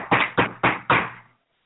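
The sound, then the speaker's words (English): Four firm, evenly spaced knocks on a door, loud and sharp, each fading quickly, then silence. “But while he was having the party, he got a knock on the door.”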